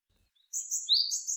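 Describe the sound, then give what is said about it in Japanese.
A Japanese tit calls in a few high, thin chirps and short whistled notes that run quickly together in a faint, bright burst after a moment of near silence. “これシジュウカラね。 これシジュウカラですか、 はい、今日全部シジュウカラの声を 流して。”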